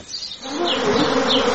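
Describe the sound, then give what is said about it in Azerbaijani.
Honey bees kept on a villager's smallholding buzz in a steady, droning hum. It starts faint and thickens into a fuller, continuous buzz within a second. “Şəxsi təsərrüfatında bostan tərəvəz məhsulları yetişdirir və arı saxlayır.”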